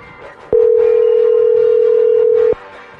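A steady telephone dial tone sounds as a phone call is placed: one loud, unbroken, even tone lasting about two seconds over faint background noise.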